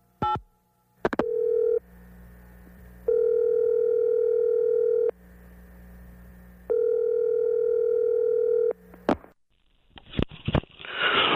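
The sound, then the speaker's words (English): Telephone dial tone while dialing a sports hotline: a steady, even tone sounds in several long bursts separated by quieter gaps, with sharp clicks near the start and end, then a short burst of crackling noise. “let's give it a whirl, Jer. Dial Ed Carter's sports hotline.”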